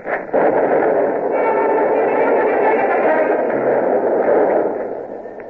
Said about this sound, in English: They're opening up. We shall do the same, please, Captain. Dunbeck, fire when ready. Aye, aye, sir. Ready. Port Petrie, fire!